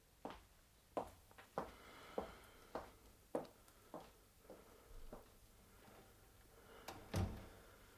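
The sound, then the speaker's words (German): Window shutters being pulled shut and bolted: a quiet series of sharp wooden knocks and thuds at an uneven pace, followed by a heavier thump near the end. “Mach die Fensterläden zu und schieb die Riegel vor.”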